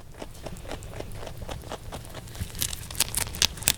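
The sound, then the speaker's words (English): A pet rabbit chews on vegetables, giving many crisp, rapid crunching and tearing clicks in an uneven rhythm that grow louder toward the end. “And yes, that was our rabbit Bilbo Baggins eating some veggies.”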